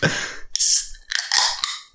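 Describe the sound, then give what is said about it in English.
A beer being opened: two short bursts of bright, fizzing hiss are followed by a quick sharp click. “Anyway, so I'm about to open my beer. I've never opened a beer on the air like this before, I think.”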